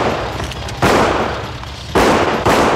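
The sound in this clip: Finishing gunshots fired at close range during a film shooting scene by a parked Mercedes: three sharp, loud bursts cut through steady background noise.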